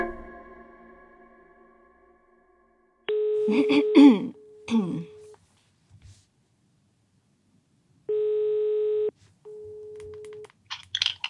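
Telephone ringing tones as a call is placed, a few steady, even beeps separated by pauses. Throat clearing and a cough overlap the first tone, and the later tones sound alone.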